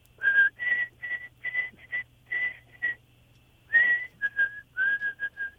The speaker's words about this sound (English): And there's a bird call that I have heard forever, and I'm also a musician. It's a ascending minor third, followed by a descending minor third, and I'm going to whistle it for you.